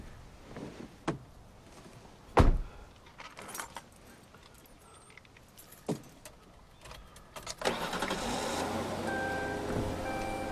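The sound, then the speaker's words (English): A car door shuts with one heavy, low thump as the driver gets in, standing out among a few smaller knocks and rustles. A sustained broad hum with a faint whine follows. “He gets in the driver's seat and shuts the door.”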